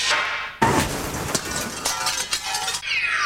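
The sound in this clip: A car windshield breaking: a sudden loud crash, then a continuing rattle and clink of glass fragments that keeps spilling for a few seconds.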